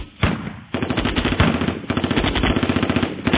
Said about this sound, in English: firing off a steady stream of bullets at the next 2 aircraft, which leveled out and returned fire.